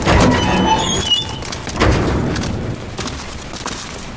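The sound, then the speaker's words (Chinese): A heavy door is opened, a couple of loud booming rumbles at the start and midway, trailing into a fainter clattering rattle. “把门打开。”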